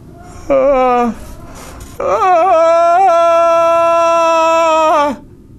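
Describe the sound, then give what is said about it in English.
A distant wail carries from the west in two tonal, drawn-out cries: a short one first, then a longer one that holds a steady pitch for about three seconds before cutting off. No talk runs over it. “And somewhere, off in the distance, you can hear a wail.”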